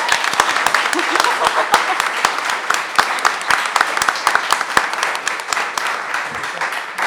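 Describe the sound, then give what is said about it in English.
Audience applause for author Ling Ma, a dense, steady stream of many overlapping claps that keeps an even loudness for about seven seconds. “Ling Ma, please give it up for her.”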